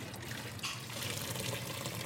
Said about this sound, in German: Er nimmt den großen Topf mit den gekochten Salzkartoffeln und gießt das Wasser vorsichtig ab.